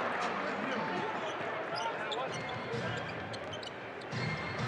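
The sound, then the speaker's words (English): Basketball dribbled on a court during a game, a few quick bounces heard beneath a steady wash of crowd noise. “crossover dribble”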